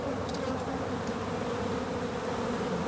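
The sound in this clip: Many bees buzz together in a dense, steady hum that stays even in loudness throughout, with no breaks.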